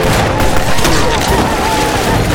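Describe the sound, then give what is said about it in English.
Defenders fire a volley of rifles at an attacking party of warriors. The gunfire is a dense, continuous crackle that stays loud for the whole stretch. “He lifted his rifle and took aim. The lead warrior was about 10 yards away. Damn, missed. Fire!”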